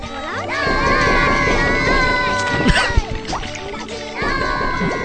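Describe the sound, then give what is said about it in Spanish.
Children scream during a happy game, making many shrill, overlapping wails and cries that run almost continuously, loud throughout with a brief dip near the end. “En medio de un juego feliz y con florecitas y escuchando esos gritos.”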